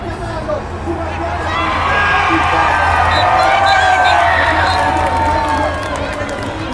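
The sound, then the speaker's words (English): Crowd roaring and cheering at a Giro d'Italia stage finish in Como as a rider sprints to victory. The dense, continuous din of many voices swells through the middle, with whoops rising above it. “So that was a bit of noise from the finish as Cataldo sprinted to the victory, and you know it was as frenzied as that sounds. Big crowd in Como, big crowd all along the course today,”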